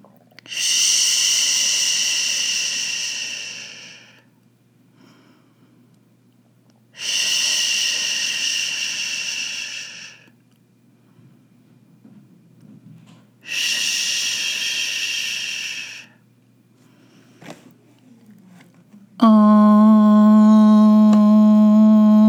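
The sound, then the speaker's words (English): A group chants a sustained, deep, steady om during meditation. It comes after three long, breathy exhaled sighs separated by silences, and the om holds loud and even to the end. “let's begin with three ishes and an om.”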